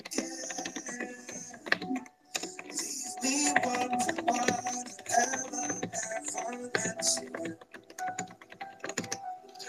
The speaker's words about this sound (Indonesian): gue habis bersihin keyboard. Jadi enak-enak lagi ininya dipakainya.